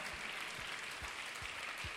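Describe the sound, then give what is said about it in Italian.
Faint audience applause during a church service, a steady wash of clapping with regular low thumps pulsing through it. “Vogliamo applaudire e benedire il Signore.”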